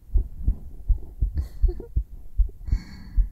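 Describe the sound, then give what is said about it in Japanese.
A heartbeat is recorded close against bare skin with a binaural microphone: many soft, low thumps in a quick, steady rhythm, with a couple of faint rustles between beats. “心臓の音聞けるとね、ドキドキしちゃうね。”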